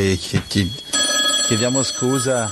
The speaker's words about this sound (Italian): Ma sembra che qualcuno telefona. Sì. Qualcuno ci chiama.